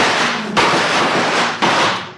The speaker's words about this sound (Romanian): Foc, prieteni!